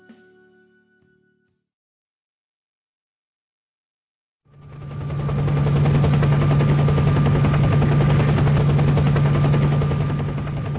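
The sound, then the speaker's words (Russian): Helicopter descending low over an old railway embankment: a loud, steady rotor roar with a deep hum fades in after a near-silent stretch and holds at full strength to the end. “Вертолет снизился почти до самой насыпи,”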